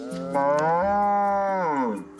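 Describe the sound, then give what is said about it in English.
Ankole cattle mooing, one long, loud, resonant low call held for about two seconds, with a slight shift in tone partway through before it fades. “He and his family have raised Ankole cattle here for generations.”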